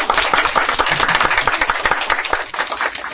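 Church audience applause greets new members and a baptism: loud, dense, sustained hand clapping with a busy, slightly rhythmic patter that eases a little toward the end.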